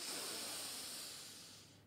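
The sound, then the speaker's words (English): A long, deep breath drawn in, an even airy hiss heard alone that holds steady and slowly fades before stopping. “So get ready, take a deep breath in.”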